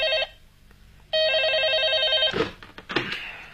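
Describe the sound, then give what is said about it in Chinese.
An office telephone in a criminal investigation department rings urgently at night. The tail of one ring is followed by a longer bright, trilling ring, then a few brief clattering noises. There is no talking. “果然，3天以后的一个夜晚，刑侦处办公室的电话急骤地响起来。”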